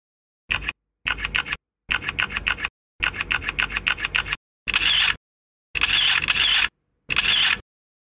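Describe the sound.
Rapid mechanical camera shutter clicks fire in seven separate bursts as a group takes photos together after a party meal, each burst a fast crisp rattle of clicks separated by short silences.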